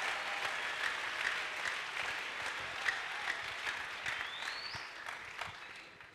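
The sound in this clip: An audience applauding during a church sermon: dense, steady clapping that runs without a break for the whole stretch and eases off slightly toward the end.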